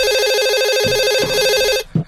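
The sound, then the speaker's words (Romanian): Home telephone ringing late at night with a loud, steady electronic warbling tone that cuts off abruptly near the end, followed by a couple of brief short sounds. “Cine sună la ora asta? Probabil că e ceva urgent dacă nu sună la ora asta.”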